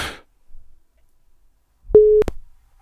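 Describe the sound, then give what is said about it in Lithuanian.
A telephone beeps while a call is being placed: a single short, steady tone framed by clicks, heard alone after faint noise at the start. “Nu va, telefonas jau pypsi.”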